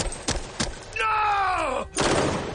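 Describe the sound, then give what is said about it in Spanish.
Gunshots in a thriller film shootout near an aircraft's landing gear: a couple of sharp bangs, then a long falling tonal moan, cut off by another loud burst of noise. “Anton dispara más allá de su padre y Sonia aparece devolviéndole el tiro que le da en el cuello.”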